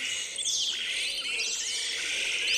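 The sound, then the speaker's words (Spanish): Calls of a Pseudoleistes marshbird, a continuous, high-pitched chatter of chirps and sweeping whistles that overlap one another and hold a steady loudness throughout. “Este es un poco largo, es un pseudo leístes”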